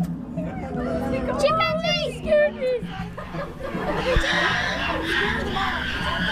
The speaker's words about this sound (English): That's the sound of some very hungry chimpanzees.